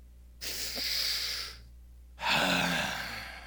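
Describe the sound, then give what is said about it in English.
A crowd of mothers takes a deep breath together: two long, breathy rushes of air separated by a short pause, the second starting more strongly and then slowly fading. “it's probably the only deep breath you're going to get even on Mother's Day, but we want you to enjoy that deep breath just for a few moments.”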